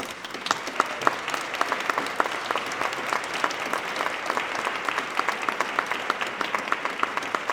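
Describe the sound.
Audience applause welcoming a speaker at an arts event in Colorado: many hands clapping in a steady, lively patter, with sharper individual claps standing out, sustained throughout without voices.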